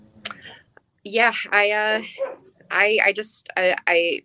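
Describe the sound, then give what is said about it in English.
Dogs barking excitedly in several loud bursts of high yapping barks and yips, with short pauses between volleys. “I'm sure you hear my dogs going crazy again.”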